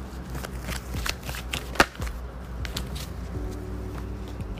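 A tarot deck being shuffled, with many rapid, crisp card clicks and flutters. One sharper snap stands out partway through, over a faint steady background.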